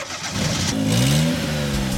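A car engine revs hard as the car drives off, a loud throaty roar whose pitch climbs as it accelerates, then holds steady at a high rev.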